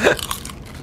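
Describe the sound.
Crunching into slow-cooked coconut chips with sea salt, fried in coconut oil: one loud crisp bite at the start, then a few smaller crunches that fade quickly.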